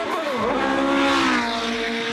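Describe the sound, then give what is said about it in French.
A V8 race car engine revs hard, its heel-and-toe downshifts working a short-throw racing gearbox, giving a loud, continuous, rich harmonic snarl that holds a steady howling note for about two seconds with no voices over it. “Est-ce que vous l'avez entendu un peu miauler le V8 là, hein?”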